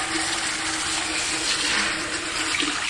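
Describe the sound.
Tap water running steadily into a sink during hand washing, a broad even hiss that holds constant throughout with no voices.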